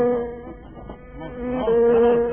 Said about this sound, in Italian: Una mosca. Non possiamo cominciare se c'è una mosca.